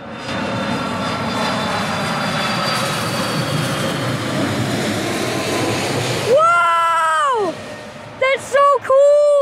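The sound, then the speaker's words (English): An Atlas Air Boeing 747 landing, heard as a loud, steady jet roar that fills the first six seconds and then cuts off, followed by excited voices talking near the end. “There's an Atlas Air Boeing 747 landing here. We are filming it out here.”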